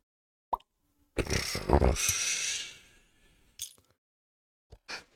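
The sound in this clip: A beer bottle being opened: a brief click, then a loud rushing hiss lasting nearly two seconds that fades out, followed by a few faint short sounds.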